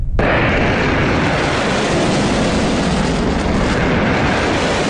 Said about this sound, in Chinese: 随着震天动地的巨响，一枚枚炮弹如同利剑出鞘，拖着橘黄色的尾焰直刺天空